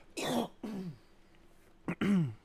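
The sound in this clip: A man clears his throat in a few short, rough, voiced bursts separated by brief pauses. The final burst is the loudest and most drawn out.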